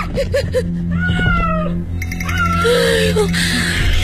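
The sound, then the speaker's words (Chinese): A feral cat meowing at night, a few drawn-out, wavering cries rising and falling in pitch, mixed with people talking. “是只野猫，走吧。”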